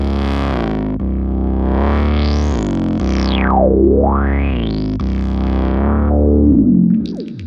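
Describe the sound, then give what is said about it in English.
A synthesizer lead with overdrive, run through a guitar amp plugin for a huge, aggressive distorted tone. It holds a thick, buzzing sustained sound while a bright resonant sweep dips low and climbs back up midway, then breaks off near the end. “And then even add a guitar amp plugin. This gives us a huge aggressive sound that's much better suited to EQing and filtering.”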